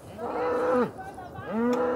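Cattle of a naturally hornless breed moo on a farm. There are two long, low, loud moos: the first falls away at its end, and the second begins after a short pause.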